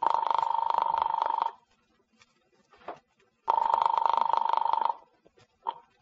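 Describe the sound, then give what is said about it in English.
Telephone ringing as a call to an apartment goes through: two long, buzzing, warbling rings of about one and a half seconds each, separated by a pause with faint clicks, moderately loud. “As I dialed Daisy's apartment, I was hoping she'd be home.”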